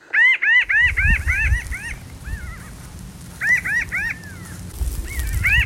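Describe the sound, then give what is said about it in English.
Pinyon jays, social birds, calling: nasal, arched cries repeated in quick runs, first a long series, then after a pause a few more and a couple more, over a low background rumble. “Pinyon jay calls carry over long distances as these social birds pursue their brash,”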